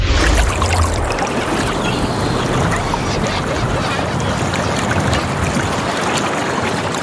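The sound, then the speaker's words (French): Seaside water sounds: a steady, broad wash of waves lapping and splashing continues without pause from start to finish. “Ah, d'un coup, là, en studio, je suis transportée sur le bord de mer.”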